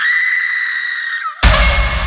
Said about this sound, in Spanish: Un alarido que venía desde el bosque, como si partiera el aire en dos. No era un grito de miedo, era de dolor, de pérdida.